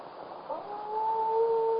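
A single long wolf howl rises slightly and then holds a steady, clear pitch. It is faint and alone, with no talk over it.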